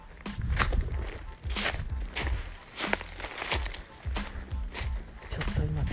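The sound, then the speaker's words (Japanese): Footsteps of someone walking home from a shrine along hillside town streets. Many steady, rhythmic steps continue throughout, and a voice talks at times. “尾道みたいなところ歩いてますけれどもねさてこれから家まで歩いて帰りたいと思います”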